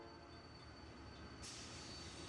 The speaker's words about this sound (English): A train runs across this track.